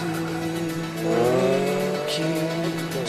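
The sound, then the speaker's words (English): A Ferrari's engine as it drives through the streets of Nice, a loud, steady motor note that climbs sharply in pitch midway through, with a tire squeal, then settles back down. “Spencer drives his Ferrari through Nice.”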